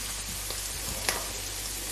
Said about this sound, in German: So, und jetzt kommt nochmal der Speck dazu. Und den röste ich jetzt mit, ein bisschen mit an.